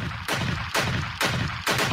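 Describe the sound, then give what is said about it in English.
Four loud gunshot sound effects fire at a steady, evenly spaced rhythm. Each is a sharp, full-bodied crack followed by a rumbling tail that runs into the next shot, with no voices. “Shots fired.”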